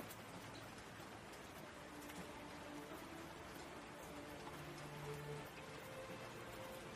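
Steady rain falling: a faint, continuous, even hiss of drops that runs unchanged from start to end.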